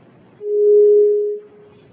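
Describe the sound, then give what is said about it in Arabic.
A telephone tone sounds after a call is cut off: a single steady, mid-pitched tone holding for about a second over faint line hiss. “انقطع الاتصال، لعله يعود الاتصال مرة أخرى.”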